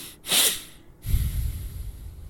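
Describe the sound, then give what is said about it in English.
Someone demonstrates a calming breathing technique of nasal inhales and an exhale: a sharp, hissing breath drawn in, a brief pause, then a longer, lower rushing breath, loud and without talk. “basically 2 breaths in through the nose and 1 breath out. Yep. But the second breath in has to be a little bit faster. So it goes something like this.”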